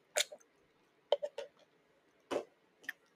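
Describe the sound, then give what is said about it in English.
A person drinks water with a few faint gulps and wet swallowing sounds in short bursts separated by quiet pauses. “sorry, I need to drink water.”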